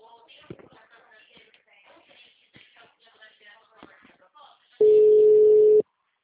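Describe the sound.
A telephone busy tone sounds after a dropped call: one loud, steady, mid-pitched beep lasting about a second. It follows several seconds of soft, indistinct voices and shuffling.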